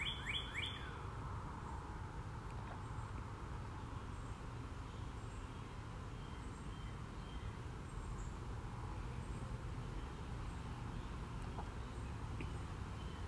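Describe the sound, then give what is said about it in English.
Birds sing around someone resting in a hammock: a quick cluster of high chirps opens, then sparse, faint calls over a steady low background rumble. “Since I'm in my hammock, we'll just listen to the birds sing for a moment.”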